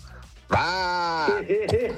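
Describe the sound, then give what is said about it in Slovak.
A man imitating a sheep: one long, loud, wavering bleat with a strong nasal buzz, trailing into a few shorter voiced sounds. “Ja si myslím, že viem napodobniť ovcu.”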